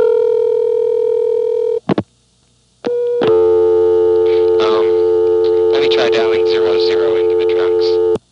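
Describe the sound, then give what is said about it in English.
Telephone tones from dialing 00 into trunk lines of a 728 exchange office. A steady tone cuts off with clicks, goes silent, then a new steady tone starts, with voice-like warbling over it. “I just said, let me try dialing 00 into the trunks.”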